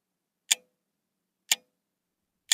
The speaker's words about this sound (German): Stellt man also das Metronom auf Tempo 60, so schlägt es 60 Mal pro Minute und entspricht so dem Ticken des Sekundenzeigers einer Uhr.